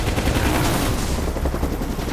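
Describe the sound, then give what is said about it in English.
Gunfire from a helicopter strafes the ground around a fleeing motorcycle, a loud, dense rattle of rapid automatic shots that runs without a break across the whole clip. “As shots tear up the ground around the motorcycle, Logan roars into woodland.”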